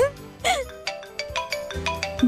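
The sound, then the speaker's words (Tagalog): Mobile phone ringtone for an incoming call, a bright melodic run of short repeated electronic notes, with a brief voice at the start. “May tumatawag. Sino kaya to?”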